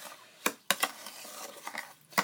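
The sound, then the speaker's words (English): A utensil stirs a mixture in a bowl, giving a few sharp clinks against the bowl with soft scraping and swishing between them, fairly quiet overall. “So I'll be mixing this for a while”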